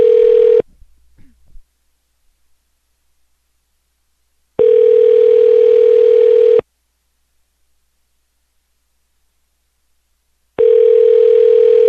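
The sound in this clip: A steady telephone tone plays in long bursts while calling an office, each burst loud and even in pitch, separated by several seconds of silence over a few cycles.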